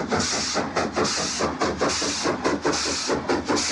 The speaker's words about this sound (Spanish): que tras refrescarse vuelven al tren. Ahora va lleno de viajeros que ocupan el techo de los vagones.